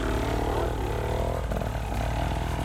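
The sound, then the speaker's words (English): Motorcycle engine running after being bump started, its rider beside a river: a continuous, rough, loud drone with a low throbbing hum and noisy overtones that stays fairly even throughout. “He's got his bike started because he bump started it.”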